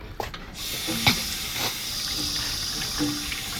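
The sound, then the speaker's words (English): Water runs from a kitchen sink tap in a steady, even hiss, with a few faint clinks and taps over the stream. “I need water, stat. Uh, yeah, of course. We have like a sink. A sink would be incredible.”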